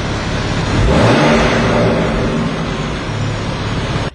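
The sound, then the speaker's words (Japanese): A car engine revving hard in sport mode with its exhaust valve open, a loud, steady roar that swells in the first second, holds at a high pitch for about three seconds, then cuts off abruptly. “この車にはマフラーのバルブを開け閉めするサウンドコントロールボタンっていうのがついてるんですよ。それを押してちょっとスポーツモードで音が大きくなったバージョンを聞いてもらいます。”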